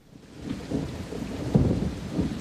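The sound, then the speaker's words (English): Heavy rain falling outside, a dense, steady roar of downpour layered with low, rumbling swells. No talk. “Outside, rain is falling heavily.”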